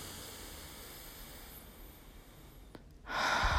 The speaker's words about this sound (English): Whatever tension you're carrying from 2019, breathe it out right now.